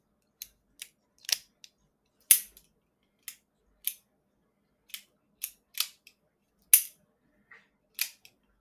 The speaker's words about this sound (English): I think I just broke my revolver. Yeah? Do you want to shoot the wall just to see?